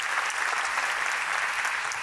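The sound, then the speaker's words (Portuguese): Audience applause: dense, even clapping from a crowd that holds steady throughout, fairly soft, with no voices over it. “Palmas. Obrigado mesmo.”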